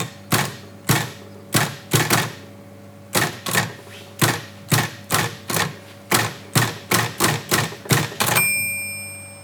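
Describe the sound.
A manual typewriter clacks with many sharp, irregular key strikes over a low steady hum, ending with a bright ringing bell tone.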